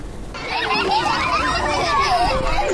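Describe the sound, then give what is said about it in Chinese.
Children play outdoors during an exploration class at a kindergarten in Harbin: a lively, continuous babble of young voices and excited calls swells after the first half second and stays loud. “在哈尔滨市南岗第二幼儿园，一堂户外探索课正在进行，孩子们溪水戏耍，搭建积木，自由探索整片空间。”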